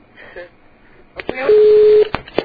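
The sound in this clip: A telephone line tone sounds while a call connects: one steady, sustained beep of about half a second with clicks around it, after faint speech at the start.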